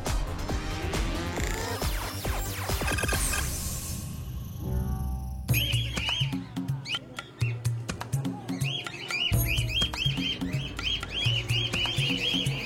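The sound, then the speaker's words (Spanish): Birds in an aviary give repeated short, high chirps and squawks in scattered bursts over a low, steady background rumble, with a noisier, rustling stretch early on. “Nosotros continuamos por nuestro recorrido aquí en el nido y estamos ahora en el aviario Manu Guayata.”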